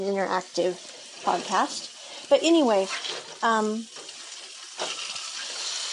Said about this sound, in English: okay, that is the sound of potatoes and beefsteak.